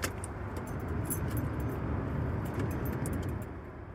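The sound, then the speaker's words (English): Keys jingle and rattle steadily in the ignition of a van being started after a roadside repair, over a low, constant rumble. “I'm gonna start the van for the first time since pulling over.”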